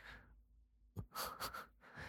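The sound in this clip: Heavy panting breath, faint and close: a few ragged breaths, with sharper airy bursts in the second half and no speech.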